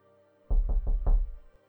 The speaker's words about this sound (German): Eines Abends, als sie so vertraulich beisammen saßen, klopfte jemand an die Türe, als wollte er hineingelassen sein.